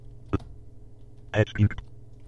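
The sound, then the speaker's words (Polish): Computer keyboard keys pressed for a Ctrl, A and space shortcut: one sharp click, then a short cluster of louder clacks about a second later, over a faint steady hum. “To naciskam Ctrl, A i spację.”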